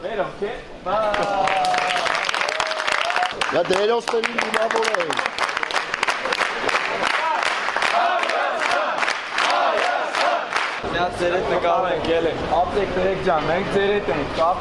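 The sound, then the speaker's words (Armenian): Fans applaud and chant to welcome Armenia's national team at Zvartnots airport in Yerevan in the early morning. Loud, dense clapping runs throughout, with voices rising and falling in chants above it. “Այսօր վաղ առավոտյան Երևանի Զվարթնոց օդանավակայանում երկրպագուները ծափահարություններով և վանկարկումներով դիմավորեցին Հայաստանի հավաքականին։”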